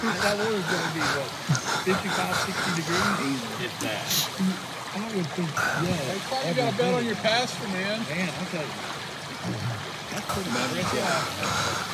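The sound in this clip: Steady rushing and trickling of flowing river water as a person walks through it, continuous and fairly even, with voices talking over the water throughout.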